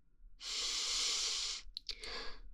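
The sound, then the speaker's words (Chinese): A long, deep breath drawn in during a guided breathing exercise: a loud, airy hiss lasting about a second. Fainter, broken breath noises follow with no talk. “你能不能深呼吸一下，像我一样跟着我深呼吸，吸气，”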